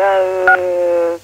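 Telephone keypad tone from someone fiddling with a phone: one long, steady electronic beep with a brief higher tone blipping in partway through, then an abrupt cutoff.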